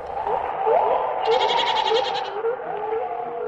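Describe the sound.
Goats bleating in a forest as dusk falls: a series of wavering, nasal bleats that overlap and follow one another steadily, fairly loud and with no voices.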